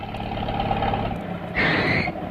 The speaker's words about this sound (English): Here comes Jethro and Ellie on the truck.